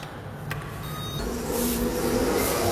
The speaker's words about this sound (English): Okay, let's jump into an elevator.